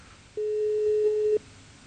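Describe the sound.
A telephone busy tone on an unanswered call: one steady, mid-pitched electronic beep lasting about a second, alone and followed by quiet.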